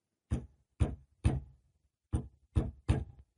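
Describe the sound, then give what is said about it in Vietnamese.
Six heavy thuds of someone banging on a coffin lid from inside, in two groups of three separated by a short pause, each blow sharp and loud against silence. “Tiếng người đập vào nắp quan tài đòi chui ra, cảm tưởng như mấy cái đinh đóng cũng đang sắp bung ra vậy.”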